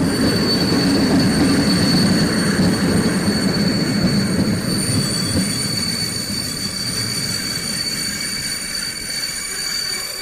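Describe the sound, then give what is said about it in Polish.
A train pulls in at a station platform on a Chełm to Dęblin service. A loud, continuous rumble of rolling wheels carries sustained high-pitched squealing from the wheels, fading slightly toward the end. “Ze stacji Chełm do stacji Dęblin wyjedzie na tor drugi przy peronie pierwszym.”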